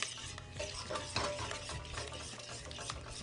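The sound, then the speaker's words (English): A sweet potato mixture with cilantro is stirred together, giving a steady, continuous scraping and churning sound with a few slightly louder strokes and no voices. “We're gonna mix that together till it's nice and blended.”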